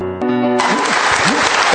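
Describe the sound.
Loud audience applause welcoming a speaker to the stage, with a brief tonal sound at the start before a dense wash of clapping and cheering voices takes over and holds steady.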